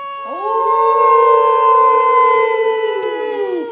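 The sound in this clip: A person's voice imitates a howl with one long, sustained "ow" lasting over three seconds. The pitch sweeps up at the start, holds steady and loud with a rich, nasal tone, then dips as it trails off.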